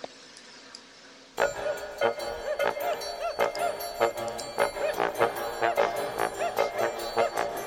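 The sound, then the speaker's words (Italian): A theme jingle for a football question-and-answer segment bursts in after a brief quiet hiss, driving along on a punchy, regular beat of sharp accented hits layered over bright music. “è pronto a lanciare la sigla di Ask Disturbo? Per lei lancio questo e altro.”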